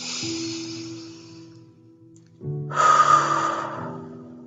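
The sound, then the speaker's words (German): Deep breathing during a guided relaxation: two breathy rushes of air, the second louder and longer, over a soft, sustained musical drone. “nimm einen tiefen Atemzug und spüre deinen Körper und deine Unterlage.”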